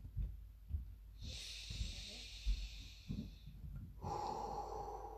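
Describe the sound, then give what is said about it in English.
A deep breath during meditation: a long, hissing inhale, then after a short pause a softer, breathy exhale, with a few faint low thumps underneath. “Deep breath.”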